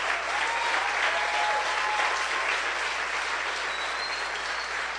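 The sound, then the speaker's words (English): Sustained applause from a crowd at a church gathering, a dense, even wash of many hands clapping at steady loudness throughout, with faint voices mixed in beneath. “And he's clapping right there.”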